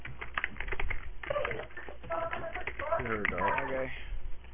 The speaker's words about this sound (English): Okay, I'm writing out the number now on...